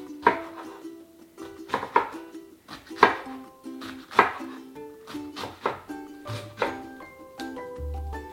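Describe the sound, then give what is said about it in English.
Knife slicing non-spicy vegan Korean white kimchi into bite-sized pieces: a series of sharp, irregular chopping thuds over steady tonal music. “I like to take the kimchi and I like to now slice it into smaller bite-sized pieces.”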